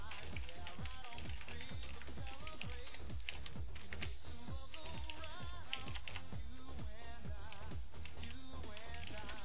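Rapid typing on a computer keyboard, a dense, steady stream of many quick clicks and taps without pause, fairly faint.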